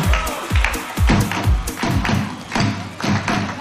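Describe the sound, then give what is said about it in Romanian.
Drums played by a woman during a break in filming a concert: a steady run of low, booming thuds, each with a short decaying tail, mixed with sharper, crisper strikes at a fairly even pace. No voices are heard. “Care bate la tobe Corina.”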